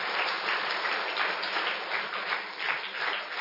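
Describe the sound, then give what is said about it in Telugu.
An audience applauds at a talk with dense, continuous clapping, steady and even in loudness for the whole stretch, with no voices over it. “Pattabhirama గారికి, అలీ గారికి claps కొట్టాలి మరొకసారి నా తరఫున.”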